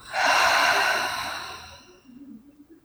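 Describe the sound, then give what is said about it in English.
A single deep breath, a loud airy inhale swelling quickly and then tapering into a long softer exhale, taken as a grounding breath during a guided session, heard alone without speech. “I like to just start my sessions with three deep grounding breaths. So inhale, exhale,”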